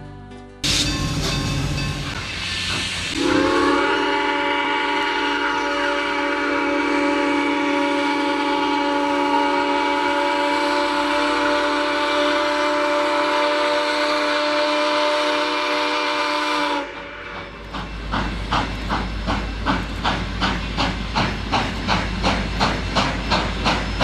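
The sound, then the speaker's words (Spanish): Steam train starting off: a hiss of steam opens into a long, loud, sustained steam whistle, which cuts off as steady rhythmic chuffing begins and continues to the end. No voices. “Rápido, suban al tren.”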